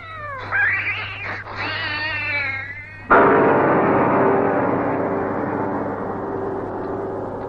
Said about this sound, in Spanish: Bravo, gato. Muy bien. Le has hecho morder el polvo a la cobra.